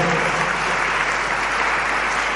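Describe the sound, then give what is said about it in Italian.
Audience applause for a small orchestra: dense, loud, even clapping from many hands that holds steady throughout without pause. “Un applauso a questa piccola orchestra.”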